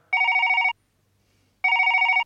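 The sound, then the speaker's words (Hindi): A telephone rings on an outgoing call to Singapore: two loud, warbling ring bursts of about half a second each, separated by a pause of about a second, with no talk. “Okay computer जी, लच्छू को Singapore में phone लगाया जाए।”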